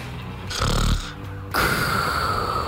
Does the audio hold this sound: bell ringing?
no

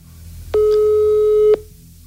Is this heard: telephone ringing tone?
yes

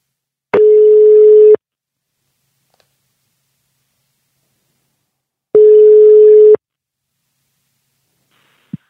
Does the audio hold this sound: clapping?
no

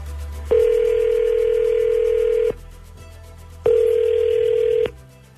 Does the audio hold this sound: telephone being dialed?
yes

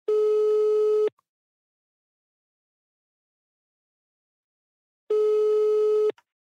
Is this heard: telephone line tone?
yes

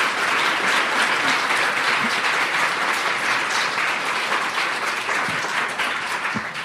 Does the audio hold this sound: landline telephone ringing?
no

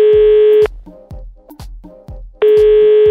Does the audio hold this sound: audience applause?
no

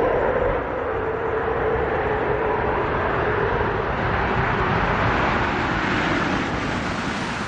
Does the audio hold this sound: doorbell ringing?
no

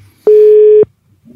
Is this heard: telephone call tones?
yes

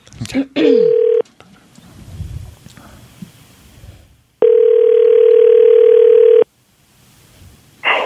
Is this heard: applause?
no

